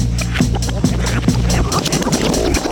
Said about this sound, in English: Let's take a spin through Joe and John's Rolodex.